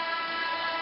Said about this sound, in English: That's the sound of the horn.